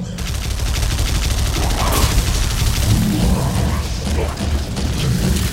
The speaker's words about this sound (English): That minigun reminds me of certain weapons from Ascent, if you've ever played Ascent before.